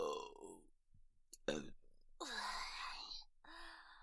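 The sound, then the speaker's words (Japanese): A woman burps, a long, low, rasping belch set among soft breathy vocal sounds and quiet murmurs. “ゲップ出ちゃった。恥ずかしい。”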